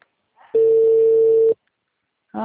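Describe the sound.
Telephone ringing, heard as one steady electronic ring tone lasting about a second, then silence before a second ring begins at the very end. The tone is clear and fairly loud, with no talk over it.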